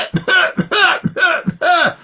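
Four raspy coughs from one person in quick succession. Each is a sharp, fairly loud burst that trails into a throaty, voiced rasp, evenly spaced over two seconds with no talking.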